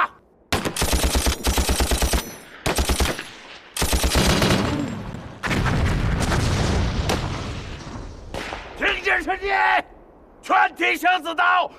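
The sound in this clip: Loud bursts of machine-gun fire and heavy booms in a battle, arriving in several rapid volleys with short gaps between them, followed by shouting voices toward the end.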